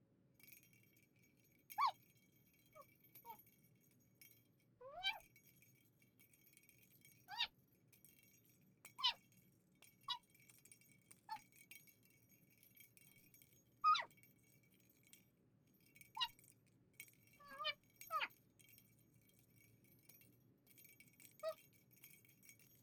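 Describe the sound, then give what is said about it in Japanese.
A small bell jingles inside a thrown toy ball as it is chased and batted about: many brief, bright, tinkling jingles come at irregular intervals, faint against a quiet low hum. “旦那様が投げた鈴の音がするボールを追っかけて私は走り出します。”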